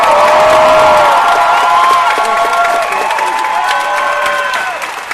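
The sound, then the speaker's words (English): An audience applauds and cheers loudly to welcome Stan Lee onto a stage, a thick wash of clapping with shouted cheers that gradually eases. “Ladies and gentlemen, boys and girls, please put your hands together and welcome the one, the only, Stan the Man Lee!”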